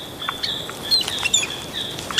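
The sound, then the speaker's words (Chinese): Chilean flicker woodpeckers call while foraging for ants in tree branches: a few short, sharp chirps over a steady high-pitched tone, fairly faint. “但今天这些吵闹的啄木鸟正在雌树的枝头四处搜集蚂蚁。”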